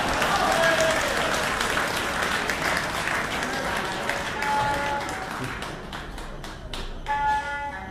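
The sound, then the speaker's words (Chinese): Audience applause at a Beijing traditional opera and folk performance show, with dense, steady clapping that gradually thins and softens toward the end and faint tonal sounds over it. “谢谢大家的掌声。”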